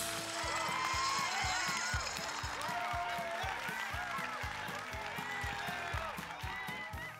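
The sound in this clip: Audience applause welcoming a new singer at the Opry, dense clapping with crowd voices mixed in, loud at the start and slowly easing off toward the end.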